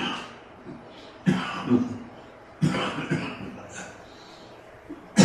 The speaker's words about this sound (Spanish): la tos inoportuna